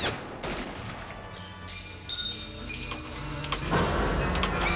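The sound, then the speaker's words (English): Gunfire in a RoboCop film scene as men shoot at the armor-plated RoboCop inside a plant: a rapid fusillade of cracks with bright, ringing metallic tones that swells into a denser burst near the end. “As RoboCop strides through the plant, the men open fire. Bullets ricochet off his armor-plated body.”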